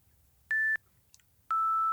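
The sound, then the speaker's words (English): Two electronic beeps mark time in a five-question timed interview game: a short, steady higher tone, then a longer, slightly lower tone, with faint hiss between them. “You will also get beeps along the way that sound a little like this.”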